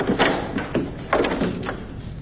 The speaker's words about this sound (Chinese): 一个刚钻进被窝躺下，另一个也正好打开了卧室的门。